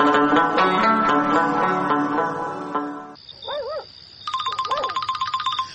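A telephone rings with a high electronic tone, first steady and then a rapid trilling pulse, right after music stops.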